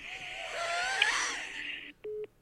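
Telephone tone after the other party hangs up on a call: short, steady mid-pitched beeps come through at the very end, after a longer stretch of louder, rushing noise.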